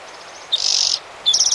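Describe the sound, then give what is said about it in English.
Birds call outside in two short, high, rapidly pulsed trills separated by a brief pause, each burst bright and fairly loud against quiet background hiss. “Maybe two birds out there.”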